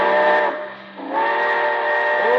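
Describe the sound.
A steam train whistle sounds as a loud, chord-like sustained blast. It dips briefly in volume, then resumes and holds to the end.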